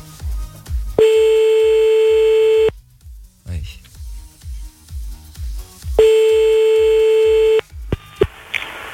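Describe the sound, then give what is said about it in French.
An odd telephone ringing tone sounds while a call is placed back to a number: two long, steady, buzzy beeps, each lasting almost two seconds with a gap between them, followed by a few short bleeps. “C'est quoi cette sonnerie bizarre là?”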